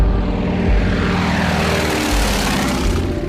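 A propeller airplane in flight drones loudly and steadily throughout, with a dense, rumbling engine and airscrew roar that holds its level from start to finish.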